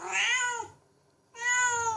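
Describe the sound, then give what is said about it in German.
A cat meows twice, each call loud, tonal and drawn out, with a short silence between them. “Die schnusigen Katzen von den Tigerli über die buschigen Roten.”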